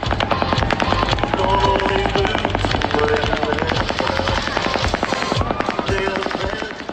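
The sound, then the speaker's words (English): Rapid automatic gunfire from a fully automatic assault weapon during a mass shooting in Las Vegas, a dense, unbroken stream of sharp cracks that stays loud and steady for the whole stretch. “Well, I immediately thought it was an assault weapon. It's certainly a fully automatic weapon.”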